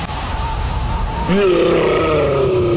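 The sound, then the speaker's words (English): A yeti roaring inside a fridge, played as a sound effect. A low hum comes first, then partway through a sudden loud, groaning roar breaks in and holds steady to the end. “That's the sound of a Yeti in the fridge. Yeah, that's a Yeti in the fridge.”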